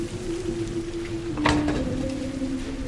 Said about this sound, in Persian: فعلا که داره بارون میاد، بند بیاد بعد میرم.